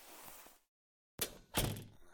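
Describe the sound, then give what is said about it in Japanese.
A door is shut at a café to keep the wind out, giving two dull thuds in close succession after a brief silence, with a softer rustle of movement at the start. “ほらドア閉めないと風入ってきちゃいますよ。”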